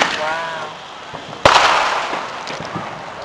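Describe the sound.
A firework from a 100-shot cake sounds one sharp, loud bang about halfway through, followed by a long fading crackle and hiss. A voice is heard briefly before the bang.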